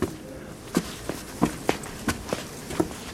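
Footsteps climbing a narrow spiral staircase, a steady series of dull thuds spaced unevenly with no voices.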